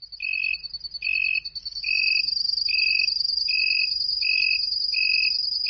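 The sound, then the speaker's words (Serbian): Cricket chirping: seven regular, evenly spaced high-pitched chirps over a continuous thin, shrill trill, steady and clear against near silence. “Miša Milanov se malo namrštio na zvuk zrikavce, što ne voliš zrikavce?”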